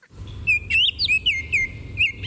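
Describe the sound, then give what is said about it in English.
Baltimore Oriole call: a few clear, fluty whistled notes in a short, irregular phrase, bright and fairly loud over a low, steady background rumble. “While it might be a little difficult to identify a female Baltimore Oriole, you will never mistake a male Baltimore Oriole in full adult plumage.”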